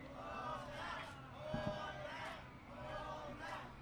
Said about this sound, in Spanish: Mira cómo el público nos pide otra, jefa.